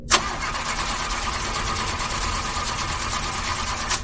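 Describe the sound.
A vehicle engine starts up just after a repair, with a sharp initial burst settling into a fast, steady, rattling run at even loudness. A second brief surge comes near the end, and the engine sounds like it is due for an oil change.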